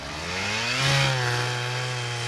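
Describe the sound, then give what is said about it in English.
Chainsaw cutting slices from old dead trees high in the mountains, a loud continuous buzzing whine whose engine revs up briefly near the middle, then holds steady. “Her team uses a chainsaw to cut slices of old dead trees.”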